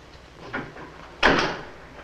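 A street door opening: a light click, then a louder, knocking thud that fades away slowly.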